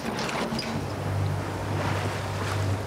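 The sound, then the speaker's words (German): A sailing boat heads out of a harbour on the Baltic coast, with a steady rush of wind and water over a low, constant hum. The noise stays even throughout, with no voices. “Und wenn du jetzt guckst, dann fahren wir jetzt so aus dem Hafen raus.”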